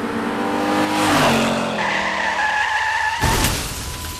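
A car skids during reckless driving, its engine roaring under a loud, high tire squeal whose tones shift in pitch as it slides. The skid ends in an abrupt, harsh burst of noise.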